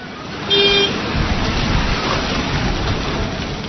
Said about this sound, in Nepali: काठमाडौँ भित्रिने र बाहिरिने मुख्य नाका कलंकीमा रहेको आकाशे पुल भत्काएर त्यहाँबाट भूमिगत बाटो निर्माण गर्न थालेपछि यहाँ सवारी चाप अत्याधिक हुने गरेको छ।